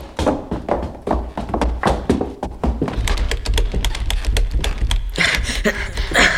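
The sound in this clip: Someone tries to open a door that has fallen shut, producing a rapid series of knocks, thumps and rattling clicks. The sounds are short, dry and closely spaced, and grow denser and busier in the second half.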